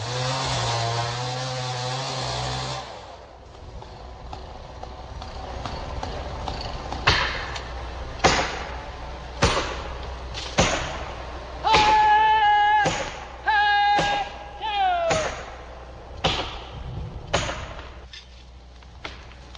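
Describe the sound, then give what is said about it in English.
A giant Douglas fir being felled by chainsaw in old-growth forest: a buzzing saw engine runs for a few seconds and stops, then many sharp cracks and heavy thuds follow, with drawn-out creaking groans of splitting wood between them. “Sound which many of us hope will become a sound of the past in the remaining old-growth forests, felling a giant Douglas fir.”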